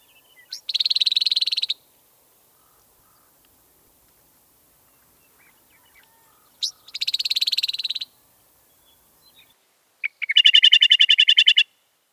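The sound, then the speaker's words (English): A Western Meadowlark gives its rattle call: high, dry, buzzy chatters in three short bursts separated by silence, the last one more sharply pulsed. “Here are the rattling sounds from different species in the Icterid family. First is Western Meadowlark.”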